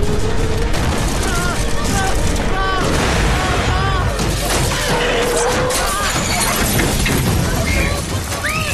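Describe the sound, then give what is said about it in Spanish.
Heavy enemy gunfire in a battle, with dense bursts of shots and booming blasts crackling nonstop while voices shout over the din. “¡Trae fuego enemigo! ¡Hay que movernos!”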